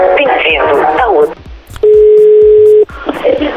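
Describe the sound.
A steady electronic telephone tone holds for about a second between stretches of talk as a call is placed, clean and even in pitch before the voices resume.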